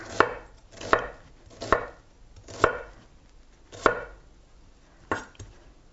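Knife chopping an onion: six crisp, separate blade strikes at a slow, slightly uneven pace, with no talking.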